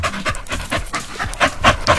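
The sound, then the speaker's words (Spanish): A hot, tired dog pants heavily: quick, rhythmic breaths, loud and close together, in a steady fast pattern with no other sounds. “Ese perro tiene mucho calor. Está cansado.”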